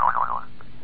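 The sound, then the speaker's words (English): A jaw harp twangs out one short, buzzy boing whose pitch wobbles up and down before it quickly fades, heard on its own. “that ridiculous, obscene musical instrument, which I prefer to call the jaw harp.”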